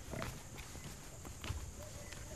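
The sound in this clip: Footsteps climbing up inside the Matrimandir toward its golden sphere during a night visit: soft, irregular footfalls at a faint level with quiet voices around them.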